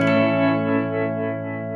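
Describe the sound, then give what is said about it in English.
Electric guitar played through tremolo and reverb effects on a Zoom multi-effects unit: one sustained, harmonically rich chord rings steadily with a gentle undulation in loudness and slowly decays over its whole length. “Yeah, tremolo reverb. So two of my favorite effects put together.”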